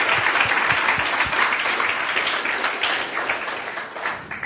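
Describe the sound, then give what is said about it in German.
Applause from a church audience welcoming online listeners: dense, steady clapping that stays at an even, fairly loud level throughout with no voices over it. “Give them a nice applause, those on the website.”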